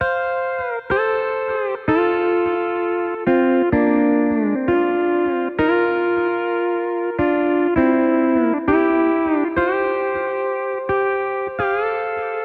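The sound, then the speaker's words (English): Pedal steel guitar played country style, a run of many clear, sustained notes, each bent slightly in pitch by a pedal at its end before the next note enters, heard alone without talk. “I play the pitch bend pedal right at the end of the note and then quickly let up on it as I play the next note. It sounds like this.”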